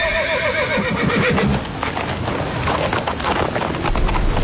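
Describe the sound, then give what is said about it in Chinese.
A horse whinnies loudly at the start, then its hooves tread and thud over snow as the reins are pulled, with gusting wind noise throughout. “马蹄轻踏，缰绳拉起”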